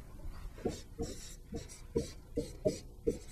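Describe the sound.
Pen strokes scratch out terms of a calculus product rule example as a steady series of short, faint, raspy strokes.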